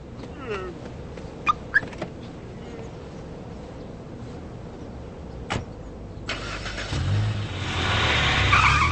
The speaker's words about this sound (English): running to his car. He gets in and leaves.